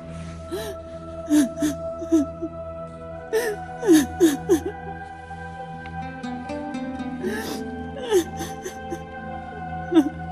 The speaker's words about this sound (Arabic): لك خلصينا بقى، حاج تبكي وتركينا نعرف ننام